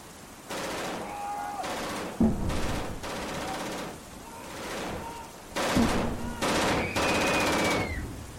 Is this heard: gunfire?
yes